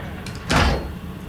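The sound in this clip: A hatch door closes with a single short, solid thump that fades quickly, alone with no voices.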